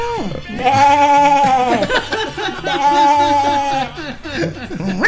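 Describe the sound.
A person's voice imitates a cow's moo in two long, drawn-out, wavering calls, with some chuckling around them.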